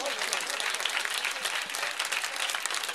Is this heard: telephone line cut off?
no